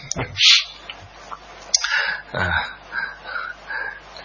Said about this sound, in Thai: ต่อไปที่ขำเพราะว่าจิ้งจกมันร้องตรงนี้พอดี